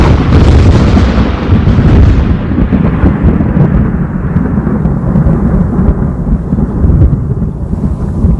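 Thunder rolls loudly and continuously as a deep, broad rumble. Its crackling upper edge fades after the first couple of seconds while the heavy low roar carries on steadily to the end.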